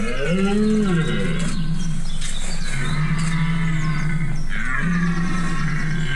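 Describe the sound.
Mating calls of a large forest animal about two metres long and 200 kilos, heard in rut season: a few long, deep, moaning bellows with a steady low tone, loud and alone without talk.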